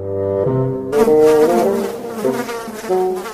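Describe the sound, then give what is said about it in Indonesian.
Buzzing of a fly being eaten by a plant that traps insects: a steady, droning hum with shifting tones that grows louder after the first second and stays strong to the end. “Wah, lihat si lalatnya dimakan oleh tanaman ini.”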